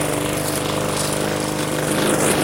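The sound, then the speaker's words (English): Lawn mower engine cutting grass: a continuous, steady, loud drone with no break and no voices. “Mowing away here. Back and forth now.”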